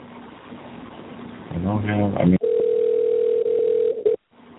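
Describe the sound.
A telephone dial tone follows a hung-up call. A brief voice comes first, then a steady, single-pitched tone holds for about two seconds before cutting off abruptly.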